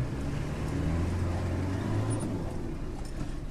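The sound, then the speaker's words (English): Steady engine drone of a car driving along a muddy old road beside rice paddies, in an area cleared of landmines; a low, even hum that holds at a constant level throughout. “Right now we're driving along the alignment of an old road that Irish teams have been clearing”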